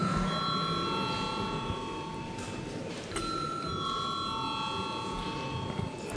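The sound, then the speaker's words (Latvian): A steady electronic bell rings in the Latvian parliament chamber to call members before a vote, a sustained high-pitched tone held for several seconds with a brief break midway, over faint background murmur. “Lūdzu zvanu.”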